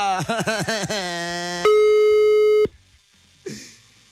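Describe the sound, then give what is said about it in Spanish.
A telephone makes a rapid, pulsing warbled tone while a call is dialed to Tecpan de Galeana. A single loud, steady beep then holds for about a second and cuts off abruptly, followed by near silence and a faint click. “Estamos marcando a Tecpan de Galeana. Y Nancy no nos contesta.”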